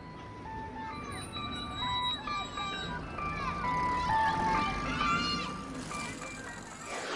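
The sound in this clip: An ice cream truck jingle plays a tinkling melody of bright, high, bell-like notes over a steady background of noise.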